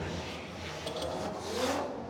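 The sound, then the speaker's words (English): Engine of an FD RX-7 drift car revving during a drift run at a drift event, a sustained loud roar with broad noise that swells briefly near the end. “Here comes this Werdhouse Drift Team Falcon Tires FDRX7, James the Machine Dean.”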